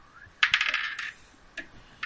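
Two six-sided dice rolled on a hard surface: a quiet burst of rapid clattering ticks, then a couple of faint taps as they settle.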